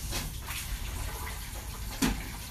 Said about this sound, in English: And I should probably wash my hands because I have nail polish remover all over them.